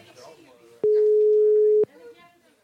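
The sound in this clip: A single steady telephone ringing tone sounds as a call is dialed. It holds at one even mid pitch for about a second, and faint voices can be heard before and after it.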